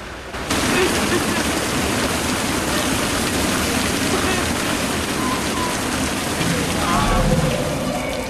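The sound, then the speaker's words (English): A sprinkler system pours water down onto a bench, a dense hiss like heavy rain that starts abruptly and then holds steady and loud. “She climbs down from the bench she's sitting on and crawls underneath it to shield herself from the pouring water.”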